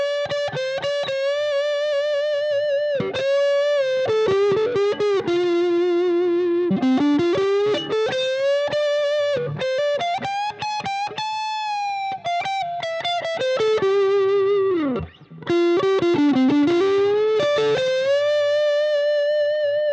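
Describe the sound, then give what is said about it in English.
An electric guitar plays a bluesy lead on its bass pickup with effects and some distortion. Sustained notes bend and slide between pitches in expressive phrases, with a brief gap before the melody resumes. “I'm going to play a little bit of lead using the bass pickup on this guitar, so you get that kind of, you can hear kind of that bluesy.”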